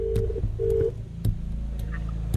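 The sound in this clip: A telephone number is dialed. Short steady tones and a series of sharp, irregularly spaced key clicks sound fairly loud over a low background hum, with no talk.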